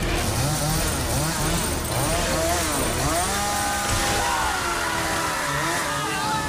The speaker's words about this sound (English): He drops Morgan's handcuffed wrists on a chandelier and picks up the chainsaw.